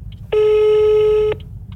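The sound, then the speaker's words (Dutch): Telephone ringback tone on an outgoing call: a single steady electronic tone lasting about a second, loud and even, then a faint low background hum. “oké, ik ga ze wel even bellen.”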